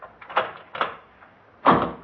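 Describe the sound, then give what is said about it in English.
Door locks being locked one after another: three distinct clunks with uneven gaps between them, the last one loudest and longest. “We'd better close the door. Yeah. You lock your lock”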